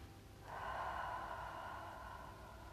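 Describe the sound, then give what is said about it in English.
A deep breath drawn in, a soft, airy inhale that starts after about half a second and is held for roughly two seconds, quiet and alone. “Breathe in new life.”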